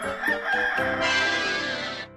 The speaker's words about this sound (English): Chicken. Chicken.